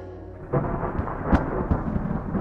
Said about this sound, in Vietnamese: Đột nhiên một tiếng sấm nổ đùng, kèm theo tia chớp chói lòa.